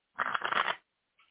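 A deck of tarot cards is shuffled in one quick, crisp riffle lasting under a second, followed after a short silence by a faint tap of the cards.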